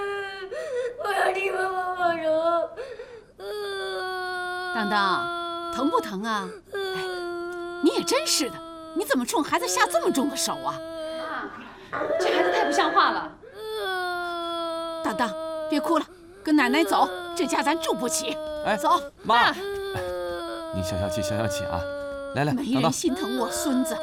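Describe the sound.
A young child cries and wails after being hit by an adult during a family quarrel, with many loud, sustained sobbing wails that slide downward in pitch. Adult voices talk at times over the crying.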